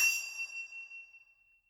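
A hand bell gives a single bright, high-pitched ding that rings out alone and fades away over about a second and a half.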